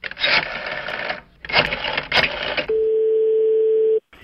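A telephone rings on an outgoing call: two long buzzy ring bursts separated by a pause, then a steady tone lasting over a second, loud and clear with no talk over it.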